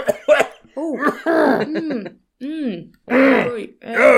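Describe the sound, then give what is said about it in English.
Harsh throat clearing, a series of rough, voiced bursts mixed with cough-like grunts, loud and close together, separated by brief gaps, with no talk between them. “Got something in my throat there.”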